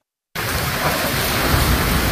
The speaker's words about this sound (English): That was the sound of gushing rain and fierce woods in Felicia Martinez's Tucson, Arizona neighborhood last week.